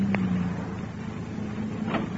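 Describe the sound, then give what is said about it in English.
A car engine in an old-time radio drama as the car is brought to a stop: a steady, low rumbling hum that runs the whole way through, with no voices. “Finally, you bring the car to a stop in front of Tommy's boarding house.”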